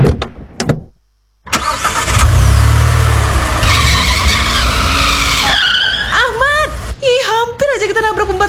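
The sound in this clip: A car skids on a slippery, rain-slick road in the dark. A few sharp bursts and a short silence give way to a long, loud rushing of tires and engine, which ends in shrill, wavering squeals.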